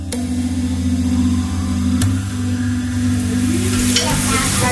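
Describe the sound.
Food sizzles and is stirred in a pan as a family cooks together in West Palm Beach, a steady loud frying hiss running throughout, with scraping stirs and a couple of sharp clicks.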